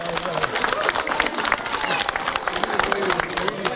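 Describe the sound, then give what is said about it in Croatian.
Crowd applause after a kindergarten group's dance performance in Pazin: many hands clapping in a brisk, dense patter that stays loud throughout, with crowd chatter mixed in. “Nagradite i njih jednim velikim pljeskom.”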